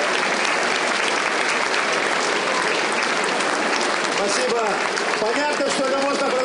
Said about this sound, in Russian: Спасибо, похлопаем.